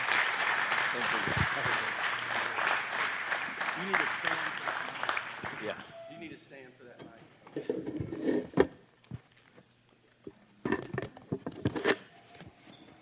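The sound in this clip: Applause from a church audience welcoming a speaker: a dense, steady patter of many clapping hands for about six seconds that stops abruptly, followed by scattered knocks and handling noises.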